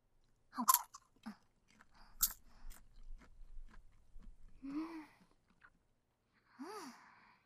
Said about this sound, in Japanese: 久しぶりに食べたけど美味しいね、これ。 でしょ？美味しいんですよ、キャラメルポップコーンは。